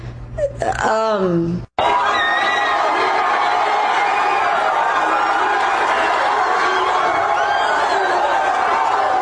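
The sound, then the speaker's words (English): A stadium crowd at the Texas-Tennessee football game boos Donald Trump. A voice is heard briefly at the start, then a loud, sustained roar of boos holds steady to the end. “Trump was resoundingly booed at the Texas-Tennessee game last Saturday”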